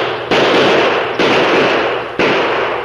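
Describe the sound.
Three loud revolver gunshots as a radio-drama sound effect, evenly spaced, each a sharp crack that dies away in a long decaying tail.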